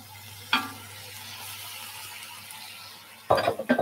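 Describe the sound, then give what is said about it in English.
Tomatoes and carrots go into a cooking pot, with a single soft thud early on, then a quick cluster of clattering drops near the end over a faint background hiss. “All right, let's add the tomatoes and carrots.”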